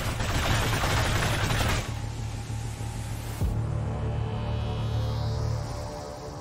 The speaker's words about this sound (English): Watch how the gun shoots.